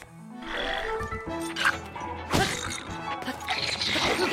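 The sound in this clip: A cobble crusher weapon in a video game whacks and breaks with a sharp crash, among several other thwacks and tonal game sounds, all fairly loud.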